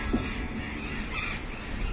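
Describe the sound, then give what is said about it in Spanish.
Harsh squawking calls of burrowing parrots circling overhead, rising from a steady, noisy background without a clear break between individual calls. “Hay algunos loros barranqueros dando vueltas.”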